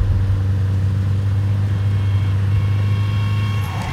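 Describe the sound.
Car on the road, heard as a steady low engine rumble with a constant drone and even loudness throughout, no voices.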